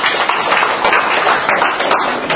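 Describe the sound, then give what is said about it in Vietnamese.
Applause from a church audience, dense clapping of many hands, loud and continuous throughout. “Chúng ta cho một tràng pháo tay để cảm ơn.”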